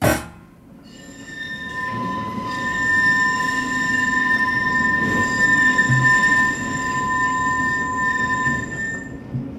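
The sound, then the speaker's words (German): A tram squeals on its rails along a Leipzig street, a sustained high-pitched metallic whine of several steady tones over a continuous low rumble of wheels, loud throughout with no voices. “Es ist die Straßenbahn.”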